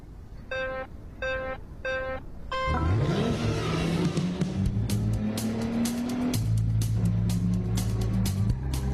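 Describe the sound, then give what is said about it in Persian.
A car driving along a road on a route being tested, beginning with three short electronic beeps, then an engine that revs up with rising pitch and settles into a steady, loud hum with shifting tones as it keeps moving. “اول ما در اولین مسیر پیشنهادی شاکیان رانندگی میکنیم”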